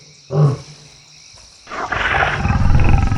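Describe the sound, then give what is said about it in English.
Lion roars on a jungle island level of a video game: a short deep roar, then after a pause a longer rumbling roar that swells and continues to the end, with no talk. “Oh, we have lions to deal with. So it is the jungle island.”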